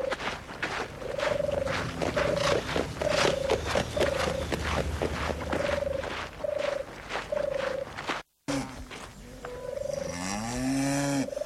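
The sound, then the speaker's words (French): Farmyard animals, including cattle, call from small, dirty farms at the edge of a village. A long run of short, evenly spaced mid-pitched calls is followed, after a brief gap, by a fuller, richer call whose pitch rises. “Il entend le bruit des vaches et d'autres animaux.”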